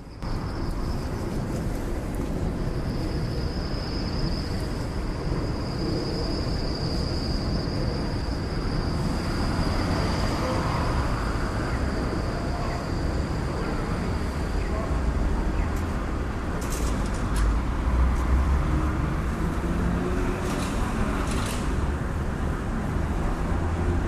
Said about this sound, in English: Standing at the corner of Main and Hastings.